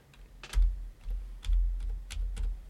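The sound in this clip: Typing on a computer keyboard: a few short bursts of crisp key clicks, each landing with a soft low thud, separated by brief pauses.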